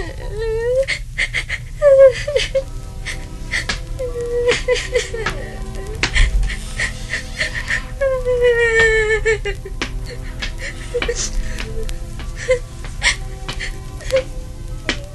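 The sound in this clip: A woman cries, with whimpering, hiccuping sobs and wavering, moaning wails that rise and fall in pitch, coming in irregular bursts throughout with brief catches of breath between them.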